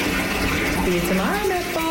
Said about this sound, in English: 16, 20 pounds of Epsom salt in a bath. Here we go, for real, with water as hot as you can take it.